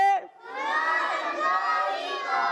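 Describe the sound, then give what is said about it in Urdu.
Children shouting enthusiastically together at the start of a children's program, a loud, sustained chorus of young voices. “جوش و خروش کے ساتھ programme شروع ہو گیا ہے بچے زور زور سے کہہ رہے ہیں”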